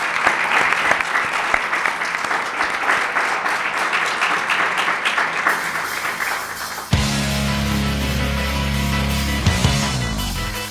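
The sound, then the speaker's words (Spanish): Warm applause from a studio audience, a dense and continuous wash of clapping that stays loud throughout, with its texture shifting partway through. “de nuestra parte este cálido aplauso para vosotros”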